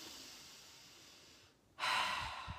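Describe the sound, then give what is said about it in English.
Deep breathing, taken as a calming exercise: a long, soft, airy breath, a brief gap, then a louder, rushing breath. “So I'm going to take 1 to 2 to 3 deep breaths.”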